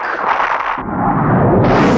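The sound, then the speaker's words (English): Tank gunfire from the tank in Joe 90 as it opens fire: a loud, continuous roaring blast whose deep, rumbling low end swells after a short moment and stays heavy to the end, with no voices. “The tank from Joe 90 has opened fire. But of course, nothing can stop the Aquatank.”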